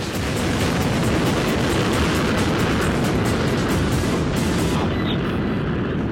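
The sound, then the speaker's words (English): Delta II rocket engines igniting at lift-off at Vandenberg Air Force Base: a loud, dense, continuous roar that fills the whole clip, its hiss thinning slightly near the end. “Engines start and lift off of the Delta II rocket with SMAP, making global observations of soil moisture for climate forecasting.”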